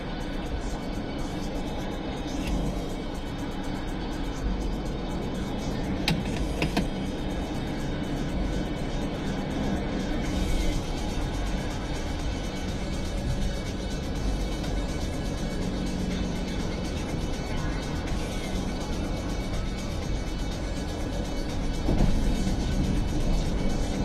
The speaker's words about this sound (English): Also, I have completely blown past my exit. I wasn't even thinking. I guess that's a good sign. This thing's, like, fun enough to drive.